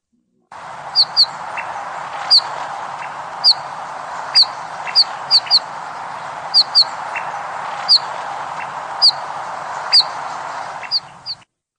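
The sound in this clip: Bullfinch calls from red-breasted birds in winter countryside near dachas: many short, high chirping notes repeat at irregular intervals over a steady low hiss.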